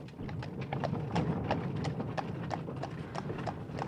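Clip-clop of hooves from a horse-drawn carriage driving off, a steady, even rhythm of quick hoofbeats that stays faint and continuous throughout, with no voices.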